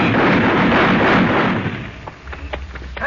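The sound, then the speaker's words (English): Gunfire in a wartime setting with M1 rifles: a loud, dense roar of shots for about two seconds, then thinning into a few sharp separate cracks. “They heard the shots.”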